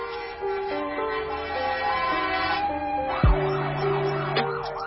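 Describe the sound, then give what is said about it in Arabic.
A fire engine siren wails as the truck arrives. Partway through, a rising and falling siren sweep cuts in over sustained background tones and keeps cycling steadily to the end. “دقائق قليلة ووصلت سيارة الإطفاء.”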